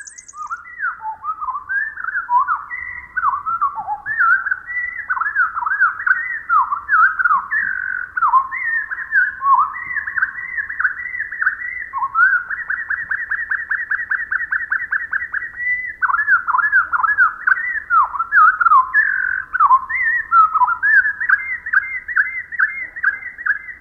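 A winter wren's song, slowed to quarter speed, unfolds as a long, continuous run of clear whistled notes, many sliding downward, broken by rapid buzzy trills, all alone with no voices.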